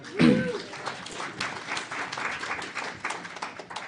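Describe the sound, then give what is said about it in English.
Audience applause at a public inquiry hearing in Winnipeg: a brief voice at the start gives way to a steady, even wash of clapping that continues to the end. “I will ask if people can just not clap to respect the audience that's online.”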